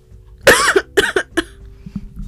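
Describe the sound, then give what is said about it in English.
Coughing from a person: a harsh, drawn-out first cough followed by three shorter, quieter coughs in quick succession, with a soft low hum underneath. “I never cough, y'all. I never cough.”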